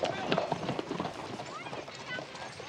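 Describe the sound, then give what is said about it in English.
Horse hooves clip-clop as a rider comes up to a cavalry headquarters, a quick, uneven patter of hoof strikes heard beneath a man's speaking voice. “Dylan rides to cavalry headquarters and dismounts.”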